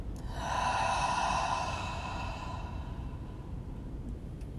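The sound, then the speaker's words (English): A deep breath out during a guided breathing exercise: one long, soft, airy sigh lasting about two seconds, fading away into quiet hiss. “take a deep breath in and deep breath out.”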